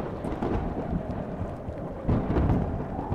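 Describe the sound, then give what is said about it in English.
A powerful windy thunderstorm roars with a dense, continuous low rumble and hiss. The sound swells louder partway through and stays heavy and unbroken throughout. “because of the power of the wind, the power that this storm has, it is easily able to pick all of you up and throw you around like nothing.”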